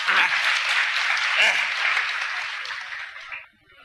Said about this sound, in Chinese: 各位鼓鼓掌，让他来了。